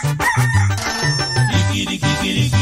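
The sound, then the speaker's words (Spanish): A rooster crows over bouncy music with a steady, repeating bass line, the crow set into the song's rhythm rather than standing alone. “El canto del gallito nos recuerda a todos que Cristo murió y nos dio luz.”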